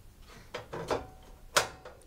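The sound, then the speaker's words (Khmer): A stove burner is switched on to heat a pan before making a brown sugar syrup, giving a few sharp mechanical clicks and knocks, the last one the loudest, with no talking. “នៅពេលនេះគឺអ្នកខ្ញុំបានបើកភ្លើងដើម្បីឲ្យខ្ទះបានក្តៅបន្តិច”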